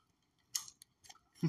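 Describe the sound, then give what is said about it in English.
Faint crisp crunches of people chewing a sweet-salty, bacon-flavored snack: a few sharp bites separated by short quiet gaps, with no talk. “So they're currently eating. I mean, snack. It tastes like really thick syrup.”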